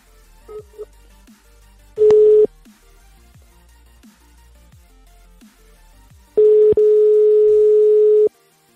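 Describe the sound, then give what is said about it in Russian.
Telephone tones while a call is being dialed: one short steady tone burst, then a longer steady tone of about two seconds, both at the same mid pitch over quiet background hiss. “Так, давайте еще раз набираю. Прям нормально началось. Еще раз набираю.”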